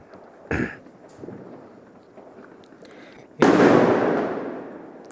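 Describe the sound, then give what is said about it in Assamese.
Firecrackers bursting: one sharp pop comes early. Later a much louder, broad boom crackles and slowly fades through the final seconds. “আপোনালোকে শুনিছে নিশ্চয় ফটকাৰ শব্দ”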